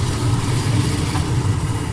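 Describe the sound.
A La Buard car, built in Mayenne, runs with its engine turning over in a steady, even low rumble. The tone stays constant with no clear revving, and no one talks over it.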